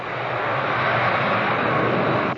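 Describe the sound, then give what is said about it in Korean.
Steady engine roar fills a private jet's cabin: a dense, even hum that holds at a constant loud level with no voices or breaks. “전용 비행기 안.”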